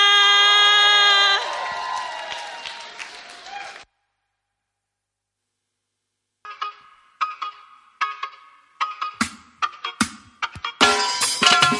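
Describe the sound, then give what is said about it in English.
A church audience cheers and claps to welcome a singer back. Music fades into a few seconds of silence, then sporadic bursts of cheering and scattered claps build and grow denser. “Then please put your hands together and let's welcome again Stella.”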